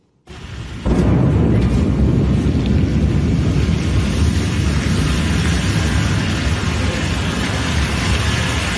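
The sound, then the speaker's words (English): A Blue Origin New Glenn rocket explodes during a late-night launch pad test, as recorded by a nearby witness. A sudden onset leaps into a heavy, sustained low roar and rumble that stays loud to the end. “A Blue Origin rocket has exploded in a fireball during a late-night U.S. launch pad test, shaking nearby homes. Here's that moment, recorded by a nearby witness.”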